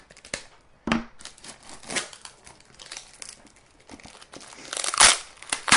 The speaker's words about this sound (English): this is 3 minutes and 45 seconds of me opening tape